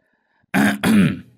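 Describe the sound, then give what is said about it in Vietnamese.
A man clears his throat in a deliberately intimidating way: two short, low, rasping bursts close together, loud and alone, with no other sound around them. “Thuần đã hắng giọng ra vẻ dọa nạt”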